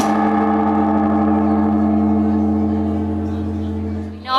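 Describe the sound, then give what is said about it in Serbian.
A huge Buddhist temple bell, struck at midnight at a Tokyo temple to welcome the New Year, rings with a deep, steady hum and layered overtones that sustain and slowly fade. A brief new noise follows at the very end. “Na mestu Zojoji, hrama u Tokiju, sveštenici i članovi javnosti su se smenjivali pri zvonjenju ogromnog zvona kao znak dočeka nove godine.”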